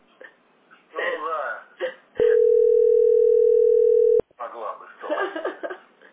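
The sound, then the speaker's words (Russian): A steady, single-pitched telephone dial tone sounds for about two seconds while a call is being placed. People talk just before it and right after it. “давай буду сейчас дозванивать.”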